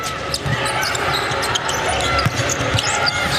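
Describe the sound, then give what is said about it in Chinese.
Basketball dribbling during a game, including a behind-the-back dribble, as quick thuds scattered through a steady, dense wash of game noise with some talk. “顺步接背后运球，再做摆脱，好球！”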